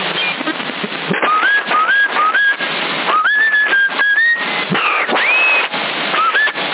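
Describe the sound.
A person whistling over a CB radio channel: many short whistled notes, mostly rising glides, repeated over a constant, thin, band-limited radio hiss.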